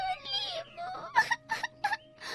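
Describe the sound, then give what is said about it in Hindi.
A girl cries, moving from a drawn-out whimpering wail into a few short, rhythmic sobbing bursts, all fairly faint. “खेलते खेलते उसे थका दिया, लेकिन लीमू नहीं दिया। लड़की तंग आकर रो पड़ी।”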